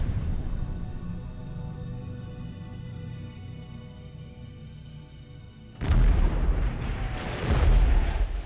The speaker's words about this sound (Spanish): El hijo de Mao muere en el bombardeo.